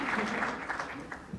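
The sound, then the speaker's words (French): Audience applause at an assembly honoring members of a women's committee, a dense, steady patter of clapping with a voice speaking over it. “Alors, levez-vous et qu'on vous applaudisse.”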